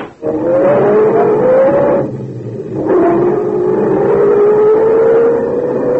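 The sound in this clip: A sedan's engine revs and pulls away on a street before dawn, its note climbing steadily, breaking off briefly, then climbing again as it accelerates.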